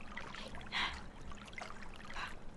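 Someone treading water, soft sloshing and gentle splashes rising in a few brief bursts against a quiet watery background, faint overall.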